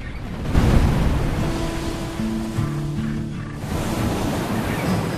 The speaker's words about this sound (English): A trawler's prow is showered in spray as it rides the heaving swell of the ocean.